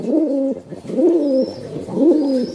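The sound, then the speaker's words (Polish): An older pigeon coos in a low, bass voice, giving three rounded, throaty phrases in an even rhythm, each swelling and then dropping away, with brief pauses between them. “Jak na starszego gołębia przystało na taki bardziej basowy.”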